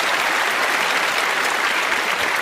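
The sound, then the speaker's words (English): Studio audience applause for a guest walking onto a talk show stage: thick, continuous clapping at a strong, even level for a couple of seconds, with no talk over it. “Let's give a big round of applause”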